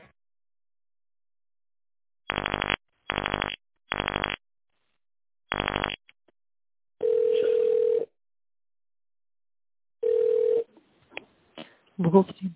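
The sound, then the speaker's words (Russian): Telephone keypad tones dial an extension number: four short bursts of sharp dual tones. Two longer steady beep tones follow, then a voice at the end. “Неверно набран номер. Наберите добавочный номер сотрудника. По окончании набора нажмите решетку.”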